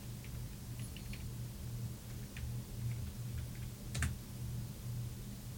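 Typing on a computer keyboard during a video game session: faint, scattered key clicks in small bursts over a steady low hum.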